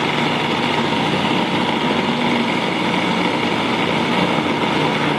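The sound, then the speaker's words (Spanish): A food processor blending strawberries: a loud, steady motor whir with a dense grinding texture, running continuously without pause or change in pitch. “Entonces vamos a licuar las fresas, a moler las fresas.”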